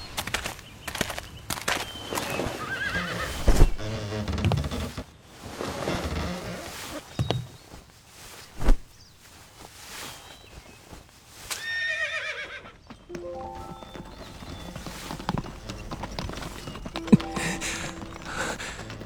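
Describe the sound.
A horse neighs while the hooves of a horse-drawn carriage clip-clop steadily, set within a dense, busy mix of other sound with a few louder bursts along the way.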